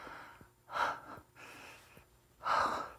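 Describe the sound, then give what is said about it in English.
Out-of-breath panting from a person struggling to catch their breath: a few heavy, breathy gasps separated by short pauses, fairly faint, with no speech. “I'm having a little bit of a hard time catching my breath.”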